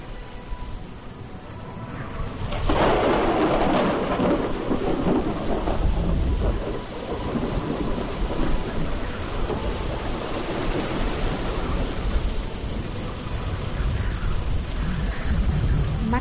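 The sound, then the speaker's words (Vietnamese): Heavy rain pours in a dense, loud, unbroken hiss. Thunder rumbles and swells early on, then the downpour continues steadily throughout. “Mưa to tới mức dường như muốn xuyên thủng kết giới quanh mỗi người.”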